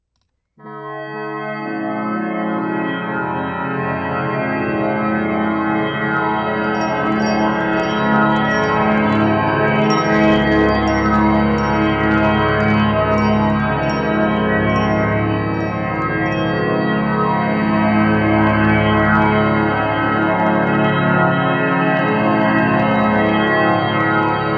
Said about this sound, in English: So it's a big kind of nice, full unison musical chord.